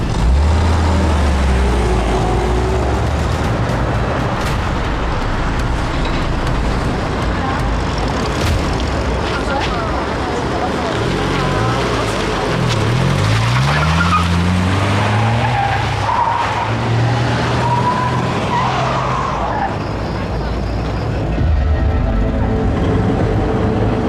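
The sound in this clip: A car drives off with skidding, squealing tires and a revving engine, loud and continuous throughout, with brief low engine pitch sweeps midway.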